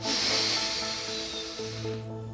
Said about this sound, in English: Inhale. Exhale. Inhale.